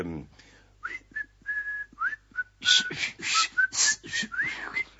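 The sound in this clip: Melodic human whistling, a string of short and held notes with some sliding up and down in pitch, joined partway through by louder, breathier noise beneath the tune.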